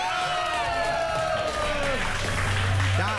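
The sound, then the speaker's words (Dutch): Audience applause and crowd noise for the Body Squad, a continuous wash of clapping under a sustained tone that fades out partway through. “Mag ik een belachelijk groot applaus voor de Body Squad?”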